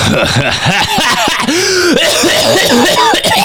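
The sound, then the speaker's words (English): Harsh, hacking coughs and throat clearing come from someone who has been smoking a vape pen. The raspy bursts follow close on one another in a loud, continuous fit. “And you're hacking because you're ripping that dumbass pen. No, I'm hacking because you made me record this.”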